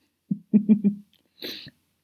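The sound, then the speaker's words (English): A sharp, gasping breath full of shock, excitement and fear: a few short voiced huffs, then a single breathy, hissing intake of air, all fairly loud and alone without speech. “the excitement and fear, all rolled into one sharp, gasping breath.”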